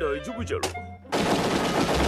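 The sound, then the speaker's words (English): Kirby fires a fully automatic gun in a video game: after a second of tonal game sounds, a dense, continuous burst of rapid gunfire erupts and runs to the end. “Kirby shoots a fully automatic gun in this series.”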